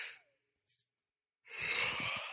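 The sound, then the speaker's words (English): A person yawns: a short breath, a brief quiet gap with a faint click, then a long, breathy, drawn-out exhale that stays fairly soft. “Sorry, I yawned.”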